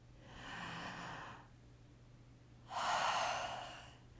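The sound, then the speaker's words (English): A deep breath, heard as two long, breathy rushes of air separated by a quiet pause of about a second, the second one louder and fuller than the first, with no talking. “Just pausing for a minute, taking a deep breath.”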